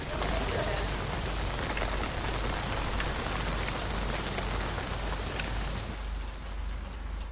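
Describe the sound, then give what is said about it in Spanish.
Steady rain falls as a dense, even hiss that holds at the same level throughout, softening slightly near the end. “Más tarde, continúa lloviendo.”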